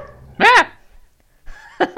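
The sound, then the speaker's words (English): Dog barking in reaction to a cat: a few sharp, high-pitched barks with a yelping tone, one burst early and a quick pair at the end, separated by a quiet pause. “That was our dog responding to a cat attack. Or a cat setting foot on his bed.”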